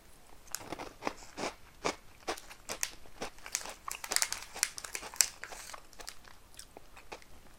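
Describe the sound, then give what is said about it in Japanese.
A wrapper crinkles and chocolate bamboo-shoot snacks are crunched and chewed: many short, crisp crackles and bites in an irregular rhythm, fairly faint throughout and without talk. “さっき行きがかり上出したこのたけのこの砂糖を食べよう”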